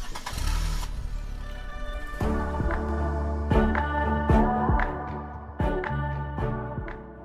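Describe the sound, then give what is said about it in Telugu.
A car engine starts with a low, rumbling crank in the opening second, then settles into a steady running hum overlaid with sharp knocks and ringing tones. “పద త్వరగా car start చేయి”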